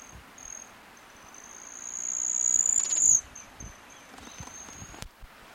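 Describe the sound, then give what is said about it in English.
A broad-tailed hummingbird's dive makes a high, thin whistling tone that swells in loudness to a peak and then cuts off sharply, over a faint, steady, insect-like high drone. “Seventeen, broad-tail hummingbird diving.”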